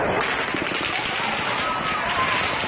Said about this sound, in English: And just a warning, you're about to hear that sound. It's gunshots fired from the Mandalay Bay Resort into the crowd.